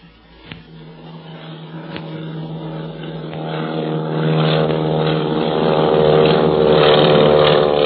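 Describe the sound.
Propeller airplane taking off and banking overhead: a steady harmonic engine drone that grows gradually louder toward the end, with a few brief knocks early on.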